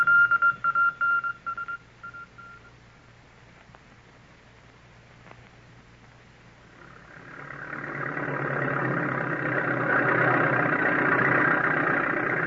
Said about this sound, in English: Ah, but wait. Let me watch that bulldozer at work. See how it takes up the trees.